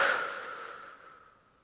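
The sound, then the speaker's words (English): A deep, soft exhale during a guided breathing exercise, airy and faint, trailing off gradually in under two seconds. “So let's take a deep breath in and out.”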